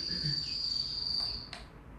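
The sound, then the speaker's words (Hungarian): Field crickets chirping: a steady, high, continuous trill that holds at an even pitch and stays fairly faint throughout. “És közben a tücskök cépelnek, ezek a mezei tücskök.”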